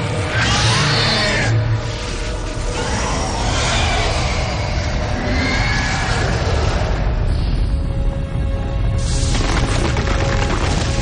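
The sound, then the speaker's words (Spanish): A huge explosion in a science-fiction film as a villain burns up reaching the sun: a loud, sustained roaring blast of dense rumble and crackle that fills the whole stretch, surging and swelling without letting up. “Parallax se quema en una gran explosión al llegar hasta el Sol.”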